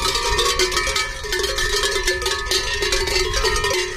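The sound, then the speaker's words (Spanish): Cowbells on grazing livestock in a village commons in Spain clang in a dense, overlapping jangle of many bells at different pitches, continuous and loud without pause. “Sonidos de pueblo, sonidos de España, sonidos de nuestro país, para que no se olviden ni algunas profesiones ni, por supuesto, algunos campanos.”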